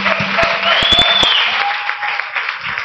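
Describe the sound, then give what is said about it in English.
Applause from a church audience welcoming the pastor's wife, a steady, dense wash of clapping that holds for the whole stretch with a few sharper claps standing out early on. “Come on, we could do better than that for the First Lady of the Church. Give her a round.”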